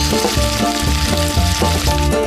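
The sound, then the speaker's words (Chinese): Beef with cattail shoots sizzles on a hot iron plate, a loud, steady crackling hiss that continues throughout with no talk. “一道铁板草芽牛柳，让细嫩与清甜变得滋滋可闻。”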